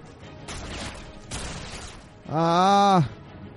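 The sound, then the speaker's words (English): Shotgun blasts in a video game, two sharp, loud bursts about a second apart, followed by a long, loud voiced cry. “Shotgun to the face.”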